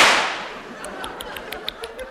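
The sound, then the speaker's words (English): .303 rifle fire as a sound effect: one sharp, loud crack at the start trails off into a long hissing decay, followed by a scattering of faint small clicks. “303, my favorite bullet. Do you like it? I fired it myself.”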